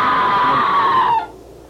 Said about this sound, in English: There it is again. That was a scream